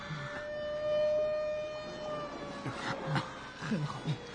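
Sirens of an arriving ambulance and police car sound as a steady, fairly faint wail of sustained tones, joined near the end by a few short, low thumps.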